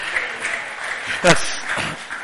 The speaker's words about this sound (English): So let's give it a round of applause.